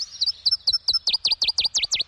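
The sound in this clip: A northern bird gives a staccato call: a rapid, even string of many high, sharp chirps, each slurring downward, that grows louder and fuller toward the end. No other sound accompanies it.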